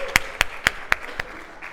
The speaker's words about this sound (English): Let's just get a round of applause for the people who said yes this year.